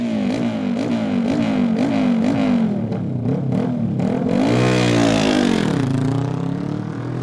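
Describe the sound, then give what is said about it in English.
An Aprilia RS660 sport motorbike accelerates away from a race start, the loud engine note climbing repeatedly through quick gear changes before a final long rising rev. “And there goes the sound of the number three machine. Liam Chalk is away. Johnny Stewart next to go on the Aprilia. The RS660 is away.”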